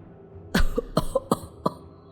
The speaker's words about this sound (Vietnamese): Ông cụ ho lên một hơi dài rồi đáp.